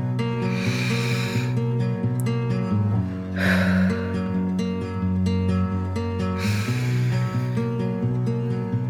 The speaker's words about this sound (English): For the last time, take three deep breaths.